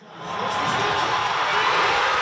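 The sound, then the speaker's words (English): Crowd roaring wildly at a Toronto watch party for the Canada versus South Africa soccer match, a dense wall of cheering that swells in quickly and then holds steady and loud. “At a watch party in Toronto, the crowd goes wild.”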